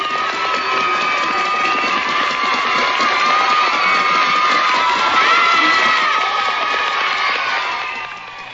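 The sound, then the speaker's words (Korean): Children cheer and shout without pause during an aerial rope-climbing act by a costumed performer. It forms a dense, loud crowd roar of high voices that holds steady throughout and eases slightly at the very end. “아이들의 환호는 그치질 않습니다.”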